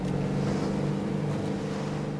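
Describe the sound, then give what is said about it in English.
A boat's motor drones as a man steers it across the water toward a fishing boat. A loud, constant low hum with rushing, wind-like noise runs unbroken throughout. “Now, the two couples, Taylor and a man steering the boat, cruise across the water toward a fishing boat.”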